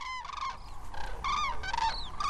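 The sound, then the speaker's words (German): Common cranes call at sunrise as small groups take off and fly overhead. Several loud, harmonic trumpeting calls come in short overlapping bursts, some bending in pitch, with no voices. “Die ersten Kraniche haben sich schon formiert. Zu zweit, zu dritt, zu viert erheben sie sich und fliegen majestätisch über uns hinweg. Erst ist es nur vereinzelt zu hören,”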